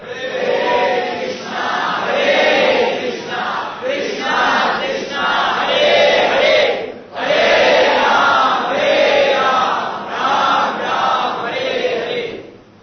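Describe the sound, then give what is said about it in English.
An audience cheering wildly, with a loud, continuous mass of voices that swells and dips but never stops. “Audience is out of control. But that's good.”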